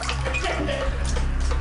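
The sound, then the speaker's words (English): An underwater sound effect: a murky, bubbling water texture over a heavy low rumble, steady and continuous for under two seconds. “Underwater sounds and creepy weird music behind George Davis.”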